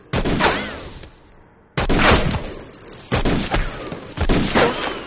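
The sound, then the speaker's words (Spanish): Revolver shots are fired into the ground in a western drama, with four loud, sharp bangs spaced a second or more apart, each followed by a rumbling, decaying tail. “Todos los disparos dieron en el suelo.”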